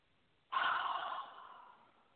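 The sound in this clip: Person taking a single audible breath, a sudden breathy rush of air that fades slowly over about a second and a half, heard alone with no talk.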